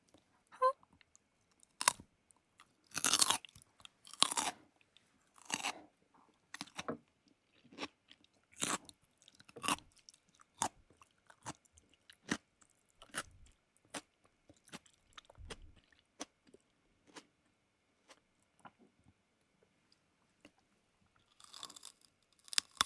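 Crunchy chewing of carrot salad: many crisp, crackling bites and chews in an irregular rhythm, some loud and some soft, alone with no talk.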